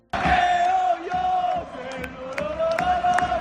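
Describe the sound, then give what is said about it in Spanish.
Mallorca football supporters in a stadium roar loudly as a player comes down onto the pitch after a victory over Rayo. The massed voices hold a sustained, chant-like cry and dip briefly in the middle before surging again. “Este último bajaba al césped el pasado domingo en la victoria frente al Rayo para felicitar a sus compañeros. Y en ese momento los aficionados del Mallorca reaccionaban así.”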